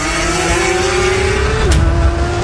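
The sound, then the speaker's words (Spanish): A Porsche car engine revs loudly as a steady, droning tone that holds, then drops near the end. Nobody talks. “sé que ustedes son fanáticos de Porsche, les gustan mis Porsche y todo eso.”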